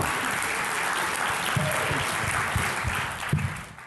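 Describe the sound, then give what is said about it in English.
An audience applauds to welcome a speaker at a morning gathering. Steady, dense clapping holds throughout and thins out toward the end. “Did we put our hands together? We'll give him another one.”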